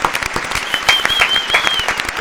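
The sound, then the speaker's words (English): Dense audience applause breaks out for a man being cheered at a live gathering in a building, a steady, crackling wash of many hands clapping that holds at an even, fairly loud level throughout. “Round of applause for Daniel.”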